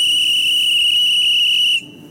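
A whistle blown to signal a train's departure: a single loud, steady, high-pitched blast held for about two seconds, then cut off abruptly.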